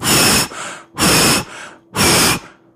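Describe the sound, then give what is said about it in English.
A person's voice imitates old bellows made of metal, wood and leather. Three loud, breathy whooshing puffs come at a steady pace, each trailing into a softer, fainter breath before the next. “An exquisite pair of old bellows.”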